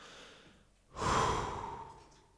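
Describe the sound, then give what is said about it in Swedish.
One deep breath is drawn by people taking a calming breath together. It swells in sharply as a broad, airy rush, then fades slowly over faint background hiss, with no talk. “Vi tar djupt andetag nu.”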